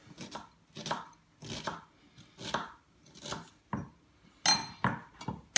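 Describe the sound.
A knife dices onion on a board for a mushroom sauce, producing many quick, fairly quiet chopping strokes in uneven rhythmic bursts, with no talking.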